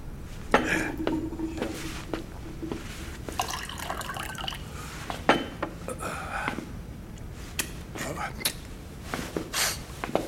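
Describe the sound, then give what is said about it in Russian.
Running water and dishes being washed by a boy: a faint, steady wash of water broken by many small clinks, clatters and drips throughout. “Мальчик моет посуду.”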